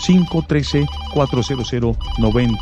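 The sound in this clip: A telephone rings with an incoming call to a call-in show: a loud melodic electronic ringtone plays as a quick run of short bright tones that repeats in bursts.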